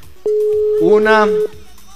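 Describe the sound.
Telephone ringback tone of an outgoing call that goes unanswered: one steady, low-pitched ring lasting just over a second, with a voice talking over its second half.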